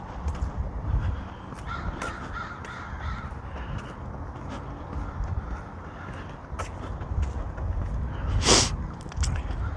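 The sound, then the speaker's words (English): Crows caw loudly from a tree overhead. Several harsh caws rise above continuous outdoor background noise, and one sharp burst comes near the end. “Perhaps you can hear the crows. I'm just supposing. They're pretty loud. The one's in the tree right above my head.”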